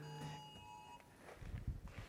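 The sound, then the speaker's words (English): A phone emergency alert tone sounds faintly as a steady, buzzy electronic tone for about a second, then cuts off, leaving soft low rumbles and shuffling. “We've got an alert happening. So look at your phones in a moment.”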